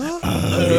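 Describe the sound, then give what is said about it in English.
A voice imitates comedian Tim Allen's grunt: a short throaty note breaks off, then a longer, steady, low guttural grunt follows, heard alone. “The top two. '80s comedian Tim Allen. Top two grunts.”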